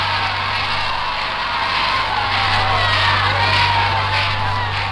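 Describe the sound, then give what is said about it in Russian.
A crowd cheers and shouts in welcome of returning victors as a garlanded train arrives, a continuous loud roar of overlapping voices and whoops. “Приветственные возгласы, поцелуи. Народ восторженно приветствует победителей.”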